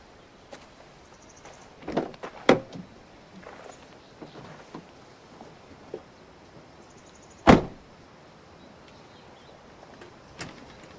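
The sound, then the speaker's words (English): A person gets into a car: a few soft clicks and rustles, then one sharp, loud door slam, followed by a couple of faint knocks and near quiet. “He looks down, then gets in the car.”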